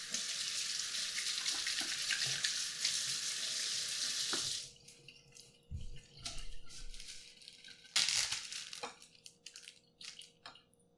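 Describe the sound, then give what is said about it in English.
Hands are washed under a running tap during pizza making: a steady hiss of flowing water for several seconds that stops abruptly, followed by scattered light clatter and handling noises. “Oh, I have to wash my hands again.”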